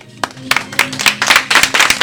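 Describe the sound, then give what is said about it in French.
An audience applauding two artists at the close of a school performance: a few sharp, loud claps at first, quickly thickening into dense, vigorous clapping from many hands that keeps up strongly. “On applaudit quand même”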